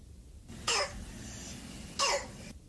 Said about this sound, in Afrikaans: So klink dit as jou kind kroep het, wat dan die gevolg kan wees van masels.